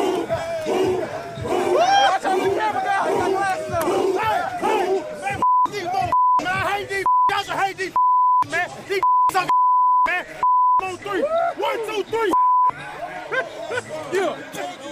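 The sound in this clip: Censorship bleeps cover swearing in a profanity-laden pep talk before a game against New England. Several steady, high-pitched beeps cut in and out over a loud, excited voice, with crowd chatter around it.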